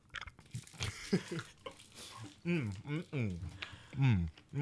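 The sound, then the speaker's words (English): A mint is crunched and chewed in quiet, irregular bites, mixed with soft murmured vocal sounds between the chews. “Eating a mint. Yeah, these are expensive.”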